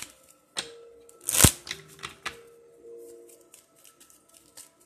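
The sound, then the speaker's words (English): Tarot cards are reshuffled by hand in a reading, giving soft scattered rustles and light snaps, with one louder, sharp flick in the middle and faint taps trailing off afterward. “there's a few cards here that are hiding. We're going to reshuffle that.”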